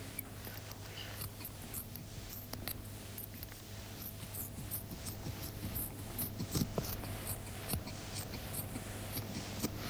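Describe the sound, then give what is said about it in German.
Surgical scissors and forceps cutting away superficial tissue layers during a breast operation: many faint, irregular snips and clicks over a steady low hum. “Jetzt schneide ich die oberflächlichen Gewebeschichten einfach mit der Schere weg. Das ist jetzt das Geräusch der Schere. Und der Pinzette.”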